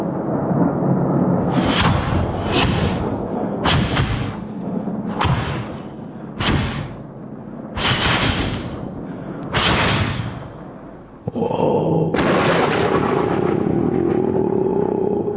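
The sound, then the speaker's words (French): Thunder rumbles and rolls loudly and almost without pause, broken by a series of sharper, heavier bursts. Near the end the rumble drops slightly and a steady low tone comes in underneath. “Le tonnerre, le tonnerre.”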